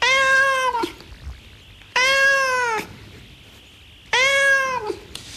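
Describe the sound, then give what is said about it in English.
A cat meowing, taken from a sound effects CD: three long, drawn-out, loud meows, each sliding down at its end, separated by short pauses. “See how your dog reacts to this cat. Turn it up now.”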